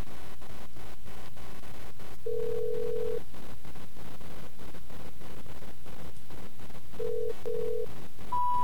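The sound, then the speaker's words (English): Electronic beeps from a handheld tone dialer sending a phone number over a Skype call: four steady tones, first one long beep, then two short ones close together, then a higher final beep, over hissy line noise with faint ticking. “So, let me dial into my tone dialer here.”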